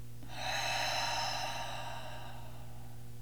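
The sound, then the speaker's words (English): Deep breath in through the nose and out through the mouth during a guided meditation: one long, soft, airy breath swells and fades over a low steady hum. “take in a deep breath through your nose. Open your mouth and let it go.”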